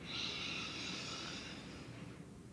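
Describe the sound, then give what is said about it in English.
A slow, deep breath is drawn in to fill the lungs during a guided breathing exercise. It is a soft, airy rush of air that swells early, then gradually fades over a couple of seconds, faint and alone. “Deep breath in.”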